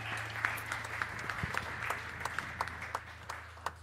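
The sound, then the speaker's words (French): Congregation applauding at a morning church worship service: dense, sustained clapping with sharp individual claps standing out, over a steady low hum throughout. “Est-ce qu'on peut acclamer le nom de Jésus victorieux ce matin?”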